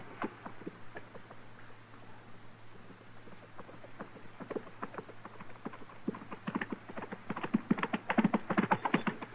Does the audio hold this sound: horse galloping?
yes